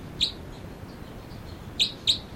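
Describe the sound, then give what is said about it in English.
Birds chirp three times, short high-pitched tweets with one at the start and two close together near the end, over a steady background hiss. “Both birds.”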